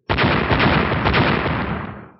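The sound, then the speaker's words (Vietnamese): Fireballs exploding in a loud, rough burst that sustains its roar for about two seconds before fading out. “Ba tiếng nổ lớn vang lên, ba quả cầu lửa đánh chuẩn xác vào giữa đám trùng vân, hóa thành từng đợt sóng lửa cuồn cuộn bao phủ toàn bộ đám trùng vân vào trong.”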